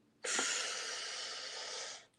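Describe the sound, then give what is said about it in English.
A deep breath in during a relaxation exercise makes a single steady, airy hiss lasting about two seconds, heard alone and fading out at the end. “So what you do is you start like this, and then you breathe in”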